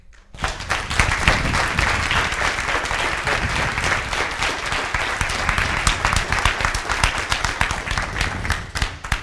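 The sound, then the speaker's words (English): Dense applause from a church audience welcoming a guest pastor, a steady roar of many hands clapping that starts almost at once and holds at an even, loud level throughout. “So please join me in giving Pastor Nathan Robinson a warm welcome.”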